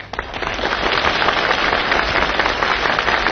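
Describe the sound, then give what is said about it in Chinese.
Thunderous applause from a large audience at a comedy show, a dense, loud, steady roar of clapping that swells quickly at the start and holds without a break, with no voices. “你听管仲的掌声，掌声如雷呀”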